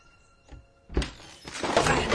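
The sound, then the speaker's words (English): A cupboard door slamming in a kitchen: soft sustained tones give way to a sudden hard bang, followed moments later by a louder burst of rattling, clattering noise. “is distracted from the empty spinning bowls by a cupboard door slamming.”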